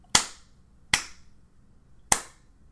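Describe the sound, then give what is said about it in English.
A slow clap: three sharp, isolated hand claps with quiet gaps of roughly a second between them. “Not to interrupt the slow clap. Oh, you definitely don't interrupt.”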